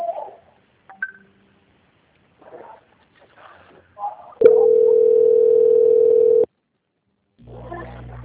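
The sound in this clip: Telephone line tone while a call is being transferred: brief faint voices at the start give way to a steady mid-pitched tone held for about two seconds, followed near the end by a lower buzzing tone.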